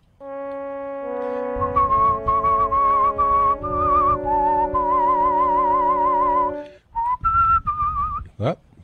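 A man whistles a show-tune melody, the clear, sustained notes wavering with vibrato over soft accompaniment, pausing briefly near the end before closing with a sharp rising swoop.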